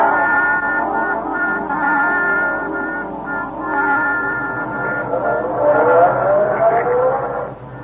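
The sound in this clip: A car driving away: a steady engine drone that climbs in pitch as it accelerates toward the end.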